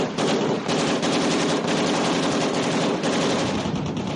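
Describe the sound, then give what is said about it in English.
Sustained automatic AK-47 assault rifle fire: rapid, continuous bursts of sharp cracks that run unbroken and loud from start to finish, with no voices. “That's the sound of one of the best designed, most durable and reliable machines of the industrial age. It's the AK-47 assault weapon.”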